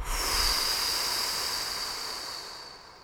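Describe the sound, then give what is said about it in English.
A deep breath is blown out during a guided relaxation exercise, a long breathy rush that slowly fades over about three seconds. “Take another inhale with me and blow.”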